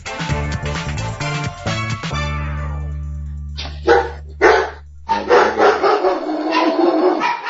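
Dogs barking at a family home: a few sharp barks in the middle, then a quicker run of barks and yips, after a steady droning tone at the start.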